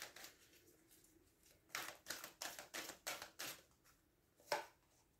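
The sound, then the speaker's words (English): Cards are drawn from a deck during a card reading, making a quick, faint series of crisp snaps in an even rhythm, followed by one sharper snap after a short pause. “i'm going to choose i'm going to take the cards from this deck”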